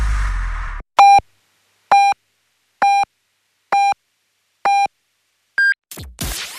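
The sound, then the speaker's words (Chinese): Hourly radio time signal on a Chinese station marking 10 o'clock Beijing time: five short, evenly spaced mid-pitched beeps, then a sixth, higher-pitched pip, with a voice starting right after. “现在 是北京时间10点。”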